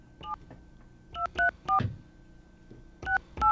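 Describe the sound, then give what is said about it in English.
Touch-tone telephone keys dial a number, producing six short, clean beeping tones in uneven groups separated by pauses, heard alone and fairly quiet. “Let's call this number now.”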